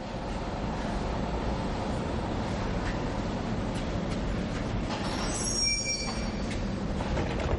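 Train at a station platform: a low rumbling roll of railcars with clattering wheels, then a shrill high wheel squeal rising out of the noise near the end.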